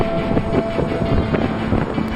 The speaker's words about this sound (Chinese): 大风开始在园上持续呼啸。